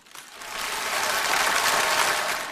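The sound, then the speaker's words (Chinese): Warm, enthusiastic audience applause for performers coming on stage: a dense wash of many clapping hands that swells quickly in the first half-second, then holds steady and loud. “我没想到掌声这么热烈，”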